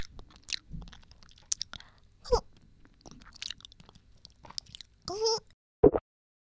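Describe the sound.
Soft, wet chewing and biting mouth sounds, spaced out and intermittent, with a few sharper, louder bites and smacks near the end against near silence.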